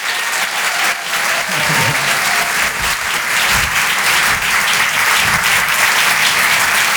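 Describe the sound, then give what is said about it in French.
Loud, dense applause from an audience welcoming a comedian on stage, a continuous wash of clapping holding steady for the whole stretch. “Maximum de bruit, s'il vous plaît, pour Marion Mésadorian.”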